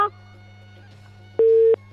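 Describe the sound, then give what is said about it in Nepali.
A single steady electronic beep, about a third of a second long, as a telephone line cuts off during a call, over a low constant hum. “बिचमा telephone कट्यो, थाहा भएन।”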